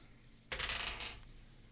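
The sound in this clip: Dice roll on a table during a tabletop role-playing game as a player rolls to hit. A single quiet rattling clatter lasts under a second, then gives way to near silence.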